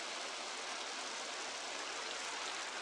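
Rain falls steadily over an inn yard where a soldier sits huddled on the box of a carriage. It is a soft, even, continuous hiss, fairly faint, with no breaks and no voices.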